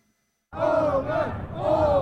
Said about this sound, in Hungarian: Ünneplő tömeg az országgyűlési választások éjszakáján április 12-én.